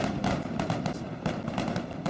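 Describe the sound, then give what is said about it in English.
Fireworks sound effect for a Fourth of July segment: a loud, continuous crackling rumble punctuated by a few sharp, bright bursts, with no talk over it. “I got fireworks anytime we need them.”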